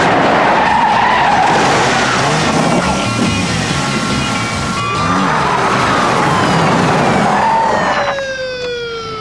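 Loud tyre screech as a car brakes hard and skids through a fast 180-degree turn. The squeal is continuous and harsh for about eight seconds, then fades near the end.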